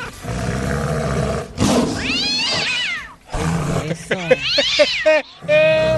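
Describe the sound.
A cat meows and caterwauls in a series of loud, wavering yowls that rise and fall in pitch, with short gaps between the cries.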